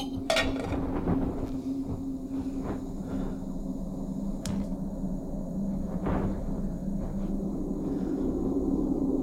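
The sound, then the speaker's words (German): A camping stove being started while pots clink: a few sharp metallic clinks and knocks stand out over a steady, faint, low hiss. “Jetzt schmeiß endlich den Kocher an. Boah, ich brauch dringend was Warmes.”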